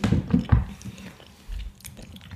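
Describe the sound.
Biting and chewing during a mukbang of marinated food made with anchovy stock: several loud, wet, crunchy bites up front, then quieter chewing with soft low thumps and a few crisp clicks.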